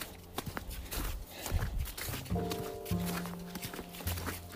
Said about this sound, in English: snow that's already here that i'm kind of slushing through right now